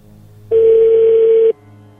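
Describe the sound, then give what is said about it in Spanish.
A telephone call rings unanswered: one loud, steady mid-pitched ring tone lasting about a second, with no other sound around it. “Estás en el correo de voz de 974. No, ya no contestó.”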